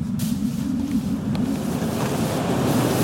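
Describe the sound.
Wind blowing in a steady, unbroken roar, heavy in the low end with a hissing wash on top, staying at an even, fairly loud level throughout with no voices.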